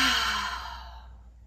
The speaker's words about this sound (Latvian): Lēni ielpa un izelpa, ja vēlies izelpa var būt caur muti tāda kā nopūta.